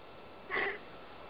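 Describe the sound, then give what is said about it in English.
A person takes one short breath in, a soft airy intake that lasts under a second and stands alone against quiet. “I'm just taking a breath in to really take that in”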